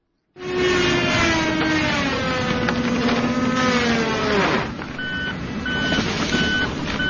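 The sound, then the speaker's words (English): Chainsaws and trucks work during tree cutting on a historic golf course in a park. An engine drones loudly with its pitch sliding slowly downward, then breaks off into repeated high reversing beeps. “That's the sound of chainsaws and trucks yesterday at East Potomac Park here in D.C. as the National Park Service began a new round of tree cutting at the historic golf course near the National Mall.”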